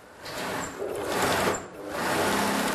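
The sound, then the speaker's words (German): A sewing machine stitches a braid of wheat straw for a straw hat, running as a steady, fairly loud whir with one brief dip before it picks up again. “Hier geht es um exaktes Nähen an der Maschine, Millimeter genau.”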